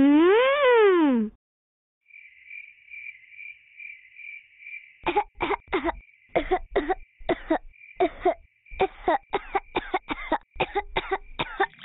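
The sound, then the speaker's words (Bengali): Repeated coughing, many short harsh coughs in quick, irregular bursts over a faint steady high tone, preceded by a brief warbling synthetic sound and a few seconds of near silence. “আপনার হঠাৎ এত কাশি কেন হচ্ছে?”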